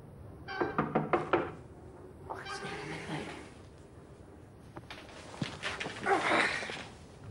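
Knocking on a door: several clusters of sharp, hollow raps, a quick run of about five near the start and later irregular groups, fairly faint over a soft background hiss.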